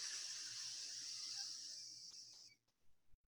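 A long, steady hiss of breath exhaled through one nostril during an alternate-nostril breathing exercise for anxiety and stress. It holds level for about two and a half seconds, then tapers off into a few faint, soft puffs.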